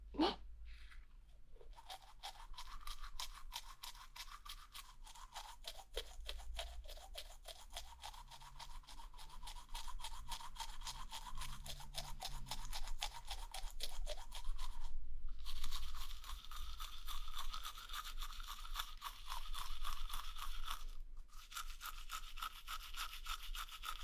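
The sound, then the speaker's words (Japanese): Toothbrush scrubbing the back of the teeth with the brush held vertically: many rapid, rhythmic bristle strokes forming a continuous rasp, with two brief pauses late on before the brushing resumes. “歯の裏側は歯ブラシを縦に向けて。”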